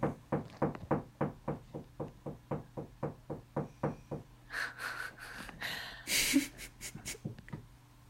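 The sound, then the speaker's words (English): A dog makes a rapid, even run of many dull knocking thumps, then the knocking gives way to breathy snorts and sniffing noises. “If you hear knocking, that's my dog.”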